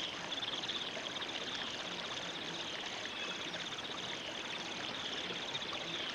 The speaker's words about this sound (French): C'est la rivière. C'est elle.